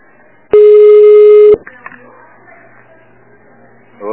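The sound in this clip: A telephone line tone as a call is transferred: one steady mid-pitched beep lasting about a second, followed by faint background noise.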